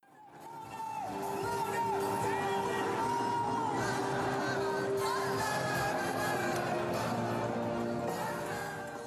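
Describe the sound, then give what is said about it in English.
About 4,000 freshmen at the Eurekaweek opening ceremony in Rotterdam Ahoy shout and cheer. The loud, continuous roar of the crowd swells in, holds steady and then fades out. “Okay, so what you just heard were clips from the opening ceremony and also Biocantus, a favorite from a lot of Eurekaweek alumni. And obviously, you can hear a bunch of different sounds, such as people shouting and just general overall enjoyment.”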